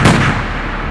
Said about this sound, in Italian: In preda al panico, Yusupov afferrò una pistola e sparò a Rasputin, colpendolo al petto.